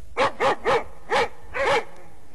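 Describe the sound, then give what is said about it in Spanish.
Dogs bark at night in a quick series of sharp, loud barks, several in a row with short gaps between them and no other sound. “Los perros ladran”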